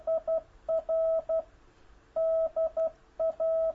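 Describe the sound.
Morse code sent on an amateur radio key, spelling the word 'dear', as a steady mid-pitched tone keyed in short and long beeps. The beeps come in separate groups with brief pauses between them, and no one speaks.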